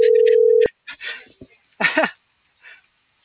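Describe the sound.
A phone call tone, one steady, even-pitched beep lasting just over half a second, comes first and loud, followed by a few short bursts of voices.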